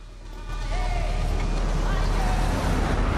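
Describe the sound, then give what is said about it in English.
A truck carrying mercenaries rumbles through an African town. Its engine makes a steady low drone that swells after the first half second and holds, with faint indistinct voices mixed into the noise. “Mercenaries in a truck drive through an African town.”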